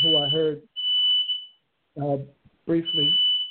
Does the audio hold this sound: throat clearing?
no

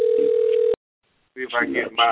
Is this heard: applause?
no

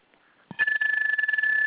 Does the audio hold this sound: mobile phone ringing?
yes

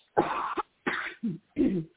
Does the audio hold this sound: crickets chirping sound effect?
no

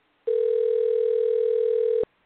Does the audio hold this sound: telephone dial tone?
yes

